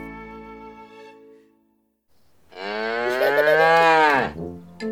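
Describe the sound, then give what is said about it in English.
A cow moos on a farm, one long, loud, low moo that swells and then breaks off. Before it, a fading tonal sound and a short quiet pause. “Look, it's a cow. Moo, moo.”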